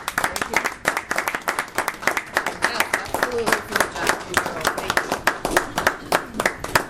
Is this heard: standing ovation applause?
yes